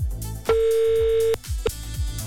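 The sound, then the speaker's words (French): WhatsApp call ringing out on a computer, a steady mid-pitched tone held under a second, then a short blip, over rhythmic music. “ça va sonner l'ordinateur. Et oui, ça prend du temps parce qu'il y a beaucoup, beaucoup de monde qui veut jouer sur le WhatsApp.”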